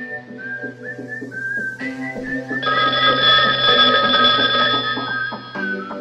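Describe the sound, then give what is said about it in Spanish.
Melodic telephone ringtone announcing a live call-in, loud and continuous, with layered whistle-like electronic notes and a steady sustained low tone, changing texture partway through and running almost the full length. “Tenemos una llamada al aire.”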